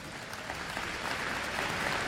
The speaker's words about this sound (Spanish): Un aplauso al Espíritu Santo.